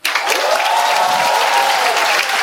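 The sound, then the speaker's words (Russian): Audience applause at a stand-up comedy show sounds as a loud, dense burst of many clapping hands that starts abruptly and stays steady throughout, with no talk over it. “Не надо хлопать, журнал медицинский.”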